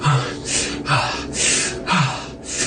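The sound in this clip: Heavy, gasping breaths from a man lying on his back in a warm, fetid cavern: loud, ragged inhales and exhales in a steady rhythm, with no talk.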